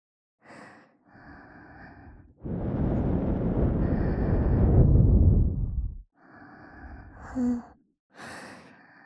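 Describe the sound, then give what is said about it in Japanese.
Breath is blown into an ear during ear cleaning. A long, soft, airy blow lasts several seconds, with a few shorter, quieter breaths before and after it. “うん、息吹きかけるだけじゃ全然取れない。”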